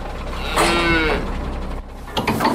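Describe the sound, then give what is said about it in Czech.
Scottish Highland cattle lowing inside a truck nearing a former shooting range: one drawn-out, loud moo, followed later by shorter, rougher bellowing, all over a steady rumble. “K bývalé střelnici se teď blíží nákladní vůz naložený skotským skotem.”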